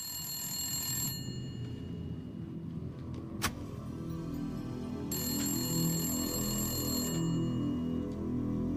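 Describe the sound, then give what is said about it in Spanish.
A wiretapped telephone rings in two long, high trilling bursts separated by a pause, over a steady low hum, with a single sharp click between them. “Después de siete días de búsqueda, el FBI recibió la llamada que tanto esperaban.”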